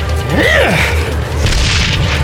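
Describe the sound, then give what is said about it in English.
A grenade explosion goes off at a corridor junction: a deep, heavy boom that swells into a loud, sustained rumbling roar lasting the whole stretch without fading to quiet. “As the party passed the corridor junction, JB pulled the pin.”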